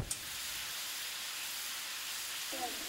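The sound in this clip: Steady, faint hiss of a stove being fired up for cooking in a middle school family and consumer sciences class, even and unbroken throughout.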